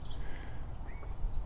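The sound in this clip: A bird calls in a forest with a few thin, high, sweeping chirps that sit faintly above a steady low rumble.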